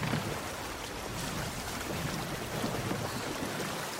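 Steady rushing and splashing water as a ship sinks in a video game: a constant, broad wash of noise with no voices over it.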